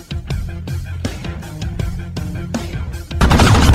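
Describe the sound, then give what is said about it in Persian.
Rapid gunfire as one man shoots another, a steady run of sharp cracking shots that ends in a louder, denser burst of fire. “گوگوری قبول میکنه و جان شروع به شلیک میکنه. تیر به سر گوگوری میخوره”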